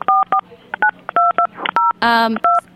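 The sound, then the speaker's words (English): Telephone keypad dialing tones: a quick series of many short two-tone beeps separated by brief gaps, loud and clear, with a low steady hum beneath. “Is somebody dialing?”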